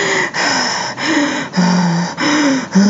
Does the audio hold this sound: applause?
no

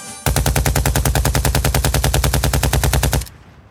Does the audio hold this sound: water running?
no

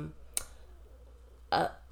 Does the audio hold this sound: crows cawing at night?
no

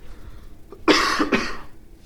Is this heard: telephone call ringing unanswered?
no

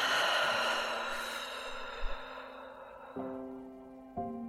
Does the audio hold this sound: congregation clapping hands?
no

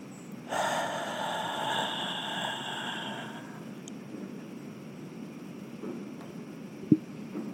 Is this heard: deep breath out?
yes

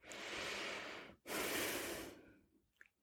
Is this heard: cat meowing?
no

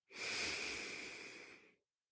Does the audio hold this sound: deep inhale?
yes

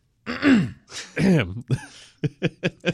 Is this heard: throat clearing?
yes

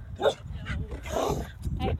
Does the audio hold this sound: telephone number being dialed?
no

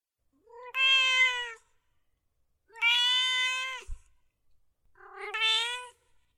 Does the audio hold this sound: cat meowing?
yes

